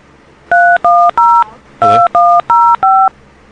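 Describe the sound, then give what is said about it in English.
Touch-tone keypad beeps as a mobile phone number is dialed: seven loud, clean dual-tone presses in quick succession, a short pause after the third, alone without talk. “Enter their mobile phone number now, or the first four letters of their Sly Dial nickname, followed by the pound sign.”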